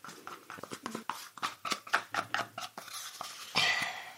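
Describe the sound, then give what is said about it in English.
Peanut flour from a capsule being mixed into a chocolate mousse pot: many quick scraping taps and clicks from stirring, growing rougher and louder near the end. “And we open the capsule carefully over the mousse, and then we mix it in.”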